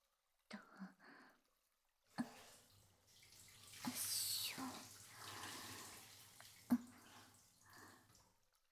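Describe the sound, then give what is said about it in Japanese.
Water is poured in a bath to rinse a body, making a faint, soft splashing wash that lasts several seconds, broken by a few sharper splashes. “体を流して、”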